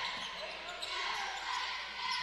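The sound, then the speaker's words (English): A basketball being dribbled on a court during a game, its faint bounces barely rising out of steady background noise. “Now he dribbles up to the top.”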